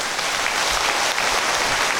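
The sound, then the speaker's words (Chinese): Audience applause at a gathering, a brief, even burst of dense clapping from many hands that stays at a steady level. “鼓掌！”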